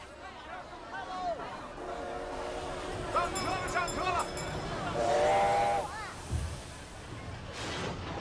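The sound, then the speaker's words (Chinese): A northbound passenger train bound for Beiping starts to move, with hissing steam and a few whistle blasts over a steady rumbling background. “北上的列车已经开动了”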